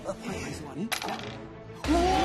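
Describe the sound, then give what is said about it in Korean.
Dice thrown during a quiz game clatter in two short rattling bursts, loud and bright against a busy background. “자, 계속해서 다음 문제를 풀려면 주사위를 던져 주세요.”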